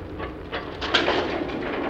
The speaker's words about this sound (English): The rumble of wheels on old metal rails brings Derek